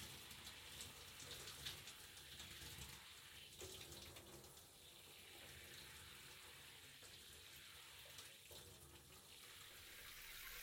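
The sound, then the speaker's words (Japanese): Water runs steadily while shampoo is rinsed from hair, a faint, even splashing hiss with small shifts in flow and no talking. “シャンプーを洗い落としますよ。タオルが濡れてしまわないように、ゆっくり丁寧に。”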